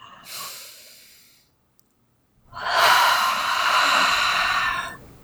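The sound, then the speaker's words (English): A deep human breath: a softer, shorter intake of air, a brief silence, then a longer, louder, breathy exhale that holds steady before fading out. “So deep breath.”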